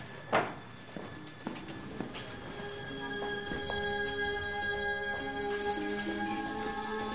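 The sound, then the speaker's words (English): Footsteps of people walking to a storeroom: a few spaced, distinct steps in the first two seconds, then a steady tonal drone that holds to the end with no clear steps. “They walk to a storeroom.”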